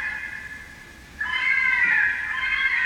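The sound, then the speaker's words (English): A fisher cat screams in the woods behind a house. About a second in, a single high, drawn-out, wavering shriek rises out of a faint background and holds to the end, with no talk. “The sound that you're hearing, the screaming, this is the sound of the fisher cats in the woods behind my house.”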